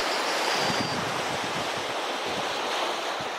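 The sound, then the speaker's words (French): Ocean waves wash onto a beach in a steady, continuous surf roar that holds an even level throughout. “Vous allez laisser aller votre esprit voyager. Et vous retrouvez au bord de la mer, à la plage.”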